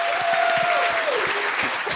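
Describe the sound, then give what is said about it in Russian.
A live show audience applauds a guest with steady, dense clapping that holds at an even level for the whole stretch. “А давайте похлопаем Александру.”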